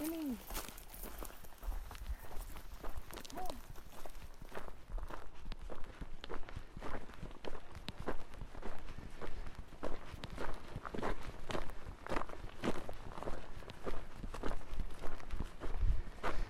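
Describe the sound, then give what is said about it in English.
Footsteps crunch steadily through an exposed landscape dotted with pine and fir trees, many regular steps continuing throughout at a moderate level. “And I suppose you guys can hear it too well, but as we're walking through what is now a more exposed landscape, still dotted with pine trees and fir trees,”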